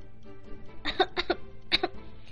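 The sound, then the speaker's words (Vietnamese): Dry coughing from an embarrassed, flustered man: several short, rough bursts that come in quick pairs, fairly faint and alone. “Hiền Viên Lãng vừa xấu hổ lại vừa bí, không ngừng ho khan.”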